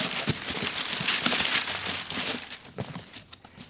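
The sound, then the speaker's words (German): Wrapping paper crinkles as a Christmas present is unwrapped. Quiet, irregular rustles and small crackles come in uneven bursts, with no talking. “Also eigentlich wollte ich den ja erst zur Bescherung auspacken.”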